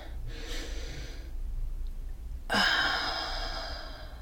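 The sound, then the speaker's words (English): Deep, slow breathing from a parent calming a child, two long breaths: a softer airy one, then a louder, fuller rush of air that tapers off slowly. “Try to take deep breaths. Like this. Match me.”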